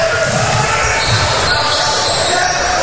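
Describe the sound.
Basketball dribbled on a court during a tournament game, the bounces buried under a loud, constant wash of crowd noise.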